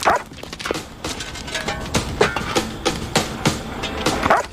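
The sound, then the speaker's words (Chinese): A big black dog approaches, producing a rhythmic run of short repeated bursts, like barks or heavy panting, that grows louder toward the end over a constant rough background. “啊！狗，那狗来了！走！”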